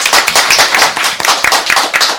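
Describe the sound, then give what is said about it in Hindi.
Loud applause from listeners gathered at a radio station's foundation-day event in Kurukshetra, a dense, continuous patter of many hands clapping without pause. “तो एक बार फिर से तालियों के साथ स्वागत।”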